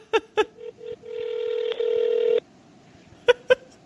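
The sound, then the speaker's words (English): A telephone call to the Kentucky Castle is dialed. A few short keypad beeps come first, then a steady tone that shifts into a ringing chord, then two more quick beeps. “Isn't there a voicemail I can leave? We're calling the Kentucky Castle.”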